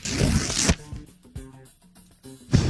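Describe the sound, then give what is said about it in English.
A paper envelope being handled and opened, with loud papery rustling bursts at the start and end and quieter, steady tonal sounds between them. “So let me grab the envelope. Come on, the golden one.”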